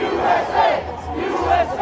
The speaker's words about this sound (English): there was kind of a medium crowd there, and they were doing their usual chants, like Stop the Steal and USA.